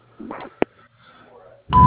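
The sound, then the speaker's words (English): An answering machine beep, a single steady electronic tone, cuts in loudly near the end, right after faint muffled clicks and murmuring. “Please leave a name and phone number after the beep.”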